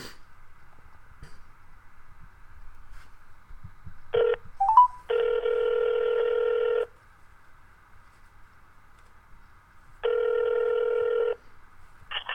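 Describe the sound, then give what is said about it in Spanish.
A telephone call being placed: a short burst of dialing tones, then two long, even ringing tones separated by a gap of a few seconds, over a faint steady background tone. “Vamos a hacerle la llamada.”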